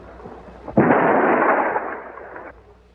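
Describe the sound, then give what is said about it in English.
Dynamite charges in a mountain pass explode when a plunger detonator is pushed. One sudden, loud, deep blast breaks out of near silence, then a broad roar rumbles on and fades over about two seconds, with no talk. “Butch pushes the plunger on the detonator, blowing the dynamite charges in the pass.”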